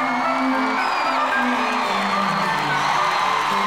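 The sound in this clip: Crowd cheering and whooping as two hosts are welcomed, a dense, steady roar of many voices that holds at an even loudness for the whole few seconds.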